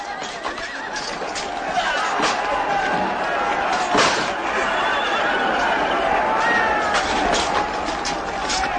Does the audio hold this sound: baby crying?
no